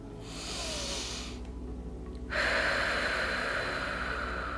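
A long, forceful exhale blown out through the mouth as if inflating a balloon during a breathing exercise: a breathy blow, a short pause, then a louder, steady hissing blow that carries on to the end.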